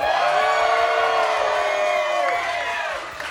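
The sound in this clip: Live audience cheering and whooping at a comic book show recording, a loud, dense crowd roar that holds steady throughout and eases slightly at the end.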